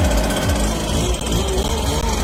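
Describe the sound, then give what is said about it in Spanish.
Leaf blower running on a Sunday, a loud, unbroken motor drone with a rough, buzzing texture and a heavy low rumble, holding steady throughout with no voices. “El soplador de hojas trabaja el domingo”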